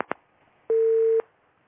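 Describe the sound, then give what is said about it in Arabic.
A telephone call on a religious advice phone-in line cutting off: two quick clicks, then a single steady mid-pitched beep of about half a second, followed by near silence. “معنا اتصال يبدو قطع الاتصال الأول.”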